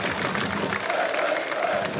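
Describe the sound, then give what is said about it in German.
Football fans applauding in a stadium as a player gets back on his feet after going down: steady, dense clapping blended with a broad crowd roar, loud and unbroken throughout. “Das ist der Leipziger, der jetzt zumindest mal wieder steht. Deswegen auch der Applaus der Lokfans.”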